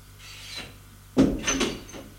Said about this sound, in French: Ouvre la porte de la chambre. Il entre.